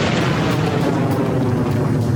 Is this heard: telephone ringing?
no